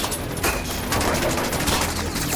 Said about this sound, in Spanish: dónde vienen esos disparos? De todos lados.